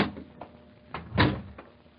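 A door opens on the way into Santa's toy workshop, heard as a few brief, muffled clunks and knocks, the loudest in the middle, with no talk.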